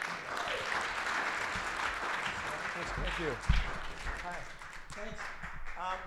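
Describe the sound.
An audience claps to welcome a storyteller. The clapping is a dense, steady wash through the first half, then thins and fades as a voice begins speaking over it.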